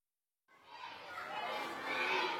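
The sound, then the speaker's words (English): Schoolboys in uniform play noisily in the corridors of a newly opened primary school in Khartoum, Sudan. After a brief silence, a lively babble of many children's voices rises and carries on, fairly faint overall. “At a newly opened primary school in Sudan's capital, Khartoum, small excited boys in uniform are flooding through the corridors in a 2-story block”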